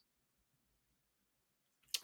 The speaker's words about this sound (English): let's see if I can double click.